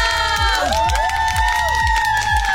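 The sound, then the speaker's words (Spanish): Crowd applause and cheering sound effect, loud and continuous, with shrill whoops and whistle-like calls over a steady, repeating low thump. “aplausos al ingeniero y a la ingeniera.”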